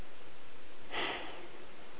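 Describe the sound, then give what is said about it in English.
A single audible inhale during a guided group breathing exercise: a soft, airy rush of breath lasting under half a second, heard alone without talk. “Now inhale”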